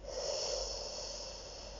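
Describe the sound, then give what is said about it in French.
A long, soft breath during a guided relaxation exercise, an airy rushing sound that swells early, then eases off gradually as it fades, heard alone without speech. “Une fois encore, vous inspirez. Vous expirez”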